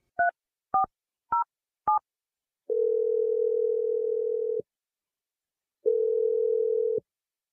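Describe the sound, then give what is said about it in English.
Telephone number being dialed: four short touch-tone beeps in quick succession, then two long, steady ringing tones on the line separated by a pause of silence. “let's call him and see what the deal is. I'm going to dial his number right now.”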